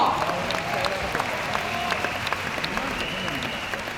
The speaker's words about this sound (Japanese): はい、ご苦労さんでした。拍手を送ってあげて。